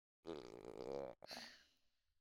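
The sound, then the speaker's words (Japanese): A hungry stomach growls, a low rumbling gurgle lasting about a second, followed after a brief break by a shorter, fading second rumble, faint and alone. “沈黙は金と言うけれど、お腹の虫は雄弁ね。どうせ夕食も取ってないんでしょ？”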